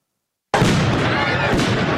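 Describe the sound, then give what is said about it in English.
Flashbang grenades go off as protesters are dispersed in Lafayette Park, across from the White House, with tear gas also in use. A loud, dense roar starts abruptly after a short silence and holds steady, with one sharp burst near the end. “flashbangs and tear gas were used to disperse protesters in Lafayette Park, across the street from the White House.”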